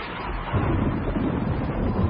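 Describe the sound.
A thunderstorm with pouring rain makes a heavy, continuous low rumble. It swells after the first half-second and then stays dense and loud to the end, with no voices.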